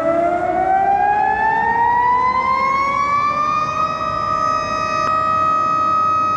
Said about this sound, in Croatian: Tačno 12 sati u gradu su se oglasile sirene i održani minut ćutanja za ubijene i prognane, javlja Zoran Glavonjić.